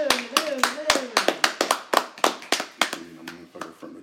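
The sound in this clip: Hand clapping in a quick run of many sharp claps over about four seconds, with voices talking over them.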